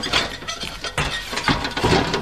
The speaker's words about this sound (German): Ich lege mich auf den Bauch und drücke die Tür auf.